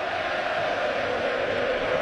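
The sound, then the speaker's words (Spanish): A baseball stadium crowd chants the batter's name, José, in a steady, dense roar of many voices that stays even throughout without clear breaks. “El público, ustedes lo escuchan, José, José, José.”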